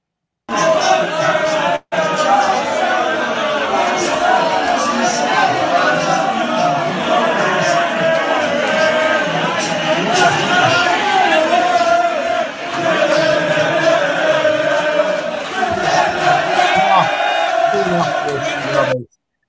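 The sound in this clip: Football fans chanting and shouting inside a Liverpool pub on match day. A dense, loud crowd roar of sung chants and bellowing voices carries on almost without a break.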